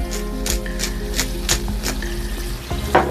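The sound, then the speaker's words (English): Sizzling of gnocchi frying in a hot pan: a steady crackle scattered with sharp little pops, continuous and moderately loud, with no voices. “And get that hot. That's what you want to hear, that little sizzle.”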